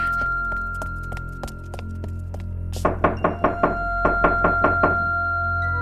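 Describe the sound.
Fists bang on a locked morgue door: light, regular tapping gives way to two bursts of five quick, hard knocks separated by a short pause, all over a steady low hum.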